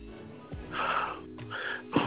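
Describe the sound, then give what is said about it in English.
Deep, heavy breathing with a few loud, wheezy, snorting inhales and exhales. “It's a deep breathing going on.”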